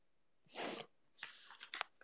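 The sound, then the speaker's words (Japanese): A sneeze bursts out once, sharp and breathy, then a few shorter snorting, breathy noises follow. “くしゃみ浴びた？キモいだろ。”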